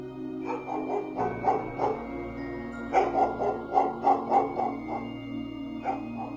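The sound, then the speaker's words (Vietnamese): A dog barks over and over in a rhythmic series of many sharp, moderately loud barks, with a steady low hum underneath. “bất ngờ vang lên tiếng chó sủa”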